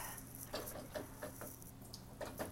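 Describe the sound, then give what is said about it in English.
Faint clinking and clattering of dishes, spoons and plates being loaded into a dishwasher, with several light knocks spread irregularly over a soft background hiss. “Anyway, gonna let that sit over here. And get the rest of this stuff in the dishy-wishy.”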